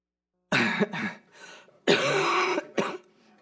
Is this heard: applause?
no